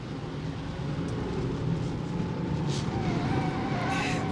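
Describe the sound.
A car drives slowly along a bumpy road at night, its engine and tyres making a steady, dense low rumble with no breaks.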